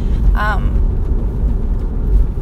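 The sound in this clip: Steady low rumble inside a car fills the whole stretch, with a brief high chirp near the start.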